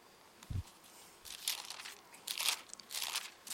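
Soft crinkling rustle of Bible pages being turned, heard as several faint, papery bursts spread across a few seconds with quiet gaps between them.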